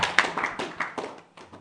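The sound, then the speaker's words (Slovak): Scattered hand claps from a small audience welcoming a speaker to the front. A few separate, irregular claps ring out, then thin and fade toward the end, with no voices over them. “Let's give it up for Aaron.”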